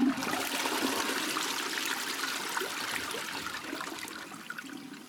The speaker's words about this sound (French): T'avais oublié de tirer la chasse